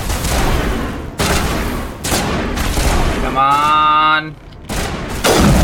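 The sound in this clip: A video-game sniper rifle fires a series of loud, sharp shots, each followed by a short rumbling tail. Midway, a steady buzzing harmonic whine sounds between shots.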